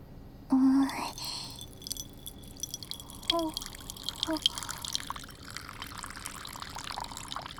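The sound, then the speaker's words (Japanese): Water is poured from a small water dropper onto the flat part of an inkstone. The trickle and drips are faint and quiet, with a few soft, brief plinks. “平たい部分に水差しから必要量の水を注ぐ。”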